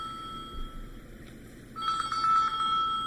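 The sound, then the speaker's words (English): A telephone rings partway through, an electronic ring with a steady high tone and a rapid warbling pulse, loud and alone. “Okay, I'm sorry about the phone. I should have put it away.”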